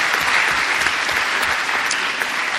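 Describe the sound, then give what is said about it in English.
Audience applauds loudly, a dense, steady wash of many hands clapping at an even level throughout with no break. “So I would like to ask you all to applaud her loudly for her courage.”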